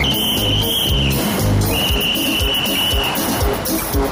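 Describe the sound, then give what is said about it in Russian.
A police officer running after a car blows a whistle: two long, shrill, steady blasts with a short gap between them, heard over busy background film sound. “Милиционер нам свистит.”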